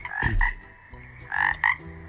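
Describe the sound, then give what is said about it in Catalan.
A toad croaking: two short bursts of throaty, buzzing croaks, each made of a pair of quick pulses, separated by a brief quiet gap. “Què et sembla que és això? Yep. Jo diria que és un sapo, que diem aquí. Aquí en dieu sapo, però en català se'n diu... Com se'n diu en català? Com gripau, es diu un sapo gripau,”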